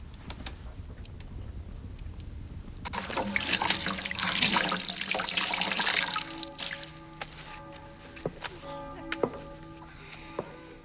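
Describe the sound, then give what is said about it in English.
Water splashes and trickles as a wet cloth is wrung out by hand. A loud rushing surge swells through the middle, then eases off into a few sharp drips and clicks. “wrings out a cloth and stands by the studio window”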